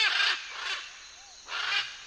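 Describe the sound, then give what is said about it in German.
Raspy squawks of macaws, including green-winged, scarlet and blue-and-yellow: three loud, harsh screeching calls, the first two close together and the third after a quieter pause. “Der Grünflügel-Ara, der Scharlach-Ara und der Gelbbrust-Ara.”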